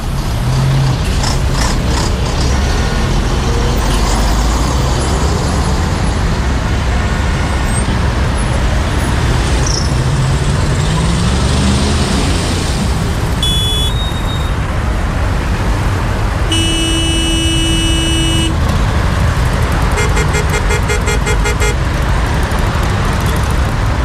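A road traffic jam of cars and trucks in a city, with a loud, steady rumble of engines and continuous mechanical clatter, and a sustained horn-like tone sounding once late on.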